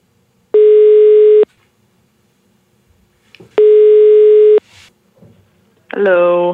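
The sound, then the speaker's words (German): A telephone tone sounds while a call is placed to a friend: two long, steady, buzzy beeps separated by a pause, then a voice answers at the very end. “Ich glaube, ich muss mal meine Freundin anrufen.”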